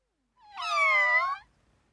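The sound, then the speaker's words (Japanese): A single cat meow, roughly one second long and tonal, swelling in at the start, holding a fairly steady pitch and then cutting off, heard alone against silence. “さあ今度は鳴き声だよ。猫はミャオと鳴くよ。 Cats say ミャオ。”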